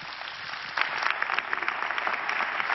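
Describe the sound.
Audience applause at a church service welcoming a guest speaker: dense, steady clapping that swells after the first second and holds loud to the end.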